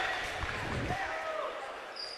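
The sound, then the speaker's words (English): A basketball is dribbled on a court during a game, heard as a few faint low thuds over steady background noise and voices. “Too much dribble.”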